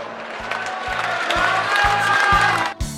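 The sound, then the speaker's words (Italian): Crowd applause, a dense crackling patter over a steady low rhythmic pulse, holding fairly even before cutting off abruptly just before the end. “E giù applausi, e giù applausi.”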